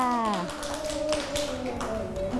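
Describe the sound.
Children clapping for a classmate in a classroom, a steady patter of small hands with a teacher's voice heard briefly at the start.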